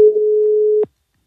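A single steady telephone line tone heard while a call is being placed, one clean mid-pitched beep holding for just under a second before cutting off abruptly into silence.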